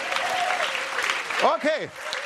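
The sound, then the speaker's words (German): An audience claps at a Christian worship conference. Dense, steady applause runs throughout, and a voice briefly calls out over it in the second half. “jetzt hast du geklatscht für ein Wunder”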